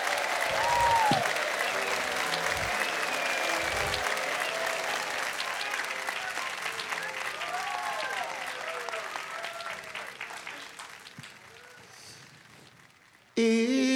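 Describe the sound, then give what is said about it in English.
Sustained audience applause greeting a performer arriving on stage at a live show: thick, even clapping that carries on for over ten seconds and slowly thins and softens toward the end. “Please, a warm welcome, if you would.”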